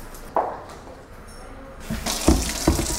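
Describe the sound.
Tap water filling a container for leg shaving in a women's prison: a few quiet knocks, then the flow starts partway through and rushes steadily and fairly loud, broken by a couple of sharper clunks.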